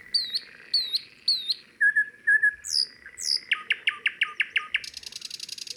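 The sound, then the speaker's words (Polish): Chaffinch and nightingale songs: bright whistled phrases and short chirps give way to rapid runs of repeated notes, ending in a fast dense trill. The songs are clear and fairly loud, with no voices. “Teraz pora na ziębę i słowika.”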